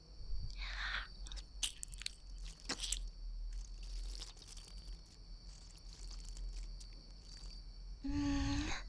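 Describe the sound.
Wet, squishy biting and mouth sounds act out a role-played vampire bite into a neck. They are faint, with scattered soft smacks and squelches, followed by a short low voiced hum at the end.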